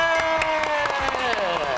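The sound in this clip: Audience applause for a team on a Thai TV game show, a steady patter of clapping over a sustained tonal background.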